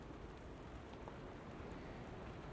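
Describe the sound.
Steady rain falling outdoors in wind, a dense continuous hiss over a low rumbling wash that holds an even loudness throughout, with no voices.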